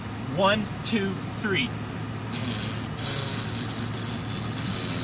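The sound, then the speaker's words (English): A voice imitates a fart: a few brief vocal sounds, then a dry, hissing, spray-like burst of breath that continues steadily for several seconds. “And Robert is vegan, so his fart wasn't this dry, pathetic imitation I just did.”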